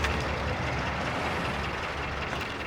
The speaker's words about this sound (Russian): Сделав крутой поворот, на площадке останавливается легковой автомобиль. Сдает назад до того места, где заканчивается ограждение.